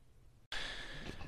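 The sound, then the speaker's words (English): A French bulldog snores after breakfast with a soft, drawn-out, breathy rasp that holds steady after a brief moment of silence. “if you can hear this snarbling snoring in the background, my little French bulldog Bruno has just had breakfast”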